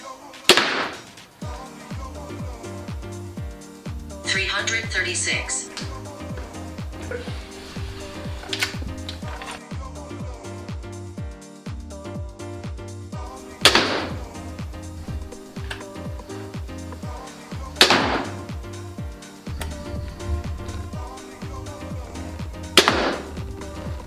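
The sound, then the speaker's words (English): A stock Wicked Ridge M370 crossbow fires during a speed test, giving a few sharp, brief snaps spread over a steady tonal background. “We're gonna speed test the Wicked Ridge M370 crossbow. Everything stock out of the box.”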